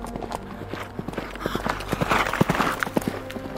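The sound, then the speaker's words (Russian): Horses' hooves clip-clopping as riders turn their mounts, a short run of several irregular, fairly soft hoof strikes on hard ground. “разворачивает своего коня, и я следую его примеру”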